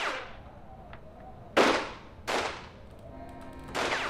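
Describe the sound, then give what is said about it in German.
Sudden gunshots ring out as three sharp, loud cracks at uneven intervals, each a sudden burst that decays quickly over a low, steady background hum. “Ich war kaum vom Hof gefahren, da fielen plötzlich Schüsse. Einfach so, aus dem Nichts.”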